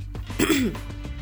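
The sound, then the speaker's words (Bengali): A woman clears her throat once in a dramatized detective story, making a short, rough, gravelly rasp that rises briefly and then trails off. “গলা ছাড়ল”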